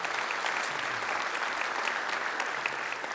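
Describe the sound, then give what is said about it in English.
A church audience applauds the mothers present on Mother's Day. The clapping is full and steady for about three seconds. “Can we give it up to all of our moms today? You guys are awesome.”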